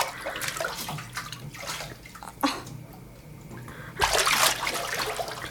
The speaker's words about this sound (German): Ich bade! Schon wieder? Du warst doch gestern erst in der Badewanne.